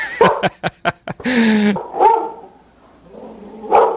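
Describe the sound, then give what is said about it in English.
Barking from a German Shepherd mix dog: a quick burst of several sharp, loud barks, then longer, drawn-out vocal sounds and a final bark. “Is that your dog? That is my dog.”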